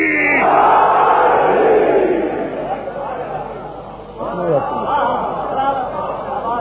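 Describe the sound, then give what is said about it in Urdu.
A crowd roars the Naara-e-Haidari religious slogan at a gathering. A loud mass shout fades away, then a second surge of shouting voices rises. “پوری طاقت سے اس بارگاہ کے در و دیوار کو گواہ بنا کر شب چہلوں کا تاریخی نعرہ, نعرہ حیدری.”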